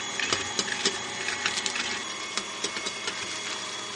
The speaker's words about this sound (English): I'm going to add a teaspoon of vanilla to the mixer while it's still on.